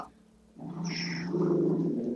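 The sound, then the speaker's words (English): A dog growls in a low, continuous rumble that begins after half a second of quiet and holds steady, fairly faint, with no voices. “That's just the dog growling. Just the dog.”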